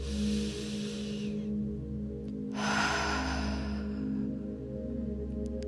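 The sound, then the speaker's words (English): A deep, cleansing breath during a guided relaxation exercise: two long, airy breath sounds separated by a brief pause, set over a steady, low, sustained musical drone. “just take a nice, deep, cleansing breath here.”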